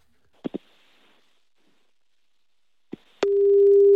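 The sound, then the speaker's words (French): Ringing tone of an outgoing telephone call: three short clicks, then a steady, loud, low single-pitched tone that starts abruptly and holds to the end. “On appelle tout de suite Quentin.”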